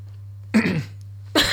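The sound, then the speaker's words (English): Two short, harsh coughs from someone choking on spit stuck in the throat, separated by a brief pause over a low steady hum. “Sorry, I was about to speak, and then a bit of like spit just got stuck in my throat.”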